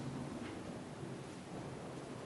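Thunder during a church service, heard as a faint, steady low rumble with a hissing, rain-like wash over it that does not let up.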